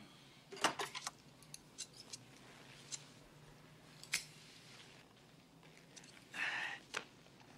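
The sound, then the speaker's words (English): Scissors snip hair at a barber's: faint, crisp metallic cuts come in small irregular clusters with pauses between, heard without talk. “Tell me how you want me to cut this. Just make it nice and neat.”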